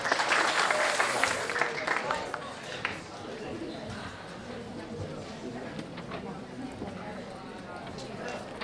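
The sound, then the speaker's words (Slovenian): Audience applause at a talk in Slovenia: dense clapping that is loudest at the start, then eases into lighter, steady clapping that continues under a speaking voice. “Dajte se en aplav, sosedite se, bravo.”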